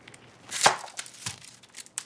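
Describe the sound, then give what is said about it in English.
Knife chopping through an onion on a board: a few sharp, crisp knocks with soft crunches between them, spaced unevenly and alone without talk. “so let's start by cutting this onion. We're going to peel it.”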